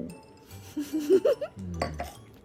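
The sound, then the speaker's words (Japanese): A Christmas toast with a glass of wine and a Hakushu whisky highball: a few light, bright clinks come close together, quiet and alone. “はい、乾杯。 はい、乾杯。 ワインと白州ハイボール。”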